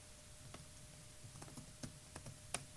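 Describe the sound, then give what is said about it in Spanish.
Someone slowly types an email address on a computer keyboard, producing several faint, sparse key clicks over a low, steady hum. “Entonces lo que hago es pulso dos veces tab, aquí escribo el mail, voy a escribir lento”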